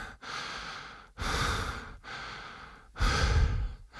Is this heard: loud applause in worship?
no